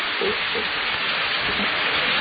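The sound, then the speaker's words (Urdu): Rain falls steadily, making a dense, even hiss that stays constant and fairly loud throughout with no other clear sounds. “فضل ہوا بارش ہو رہی ہے”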